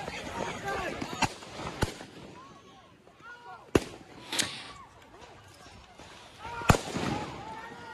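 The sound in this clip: Several sharp gunshots crack out at uneven intervals, fired at protesters during clashes between rioters and armed militia groups, with voices shouting and talking throughout the pauses between shots.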